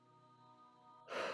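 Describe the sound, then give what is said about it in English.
A short breath is released during a guided breathing exercise, a soft airy rush rising suddenly near the end over a faint, sustained tonal drone. “and just releasing with your breath, just letting it go.”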